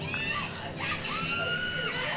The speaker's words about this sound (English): She's got a great scream, though. She's got a great one.